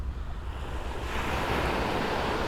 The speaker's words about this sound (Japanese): 2日連続で海岸に来てみました